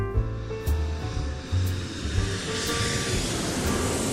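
Airplane engine noise near George Bush Intercontinental Airport: a low, continuous rumbling drone that grows into a broader, hissing roar toward the end, with no voices.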